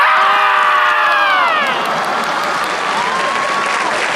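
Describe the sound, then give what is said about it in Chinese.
A performer's loud, high shout imitates a marmot's scream in a comedy crosstalk routine, falling in pitch over about a second and a half, while the audience applauds and cheers throughout. “所有的哺乳动物都要喊， 是吗？ 土拨鼠喊不喊？ 土拨鼠怎么喊呢？”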